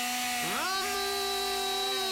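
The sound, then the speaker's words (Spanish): A Shimura 52 cc chainsaw engine revs up: its buzzing harmonic whine climbs in pitch once shortly after the start, then holds at a steady, higher pitch until the end. “Motosierra Shimura, 52 centímetros cúbicos. Precio de contado bomba, 179.000 pesos. La estamos escuchando. Escuchá. Acelerá. Ahí está.”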